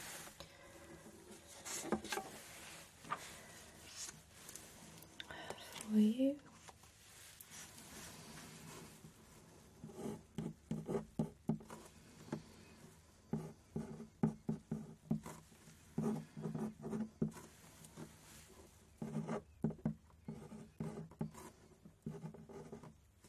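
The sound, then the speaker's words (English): Pen scratching on paper as someone writes by hand, a long run of short, dry strokes in uneven bursts with brief pauses, quiet and without any talk. “Alright, the same time. Okay, I'll just write this down.”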